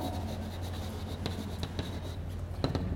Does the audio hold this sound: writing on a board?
yes